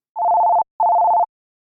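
A telephone ring tone at the start of a re-enacted call from a fake police officer: two steady, mid-pitched tones of equal length, separated by a short gap, with no other sound.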